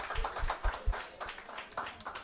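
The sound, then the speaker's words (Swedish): A pub audience claps in a short, fairly faint burst of quick, uneven claps at a live event. “En stor applåd och skål för Sebastian Håkas, the podfather.”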